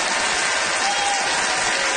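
Audience applause for a contestant at a debate-style event: dense, steady clapping from many hands forms an unbroken wash of sound.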